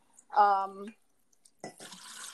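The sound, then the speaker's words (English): Water poured into a glass to drink comes in as a steady, hissing splash after a short vocal sound, continuing evenly to the end. “Sorry, I'm getting myself some water. I'm glad it wasn't you peeing. Yeah, sorry. I just realized it probably sounded like that.”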